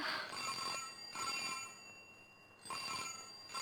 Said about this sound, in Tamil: பாத்தியா, போலீஸ் ஸ்டேஷன்ல இருந்து தான் போன்.